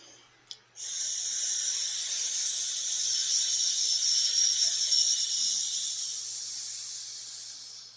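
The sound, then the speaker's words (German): Hissing breath from a circular breathing exercise called the hissing snake: after a faint click, a steady, bright hiss of exhaled air runs unbroken for about seven seconds at even strength, alone. “Nennt sich Kreislaufatmung zischende Schlange.”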